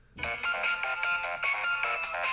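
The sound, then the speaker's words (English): A phone ringtone plays the Game Boy Horror sound from a video game, a bright electronic melody of short notes repeating in a steady loop, loud and with no voices. “You know what ringtone I have on my phone? Oh, is it the Game Boy Horror?”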